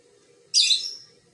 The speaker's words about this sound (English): I'm sorry for the birds.